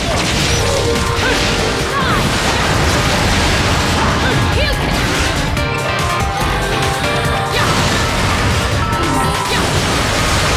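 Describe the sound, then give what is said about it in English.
Missiles explode in a video game as they rain down from above, a dense, unbroken barrage of loud crashes, bursts and booms that keeps up without a pause. “It's shooting missiles at the top. Missiles are coming down.”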